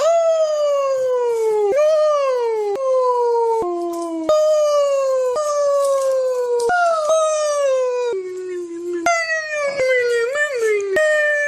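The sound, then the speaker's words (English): Dogs howling in long wavering tones that overlap and follow one another, each sliding up and down in pitch, loud and sustained with no talk and only brief gaps. “Doggies!”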